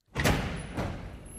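A heavy vault door swinging open as a sound effect: a broad, rumbling creak that surges at the start and swells again partway through, then holds as a sustained grinding wash to the end.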